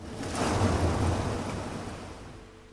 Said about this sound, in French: le son des vagues et les silences entre chacune d'entre elles. Voir vos pas s'effacer à chaque passage de l'eau.